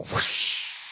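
Sliced mushrooms thrown into a hot frying pan for omelets: a brief soft thump, then a bright, steady sizzling hiss that holds and slowly thins out.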